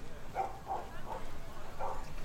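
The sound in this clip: Dogs bark faintly at a place with dogs and wolves, giving four short, soft yips spaced irregularly over steady background noise.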